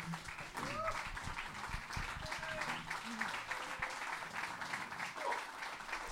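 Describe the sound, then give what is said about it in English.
Sustained applause from an audience giving a standing ovation to a speaker at a veterans' event, a steady, fairly faint wash of clapping with voices mixed in throughout. “Please, please give a standing ovation to uh, David.”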